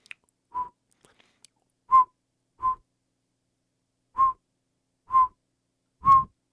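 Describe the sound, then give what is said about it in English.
Whistled call of a northern pygmy owl: six short, hollow toots at a steady mid pitch, spaced unevenly, heard alone with no talk. “The northern pygmy owl is only about 5 inches tall. And the northern pygmy owl sounds like this.”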